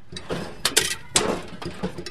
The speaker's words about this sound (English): scavenging the carcass of a washing machine